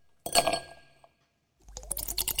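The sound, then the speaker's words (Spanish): Glasses clinking in a Friday vermouth toast: a bright, ringing chink fades within about a second, then after a brief silence a busier stretch of rattling and clattering follows. “Levantamos la copa por lo bueno que pasó o lo bueno que va a pasar.”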